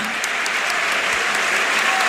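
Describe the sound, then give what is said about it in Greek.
Encouraging applause rises from the stadium stands at a packed Toumba during a Greek national team match as a player gets back up, a steady, even wash of many hands clapping at once. “και ακούτε το χειροκρότημα ενθάρρυνσης από την εξέδρα”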